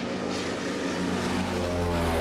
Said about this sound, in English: Beneath the cloudy sky, the plane lifts off from the runway.